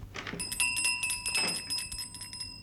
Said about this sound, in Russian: Мужчина берет колокольчик.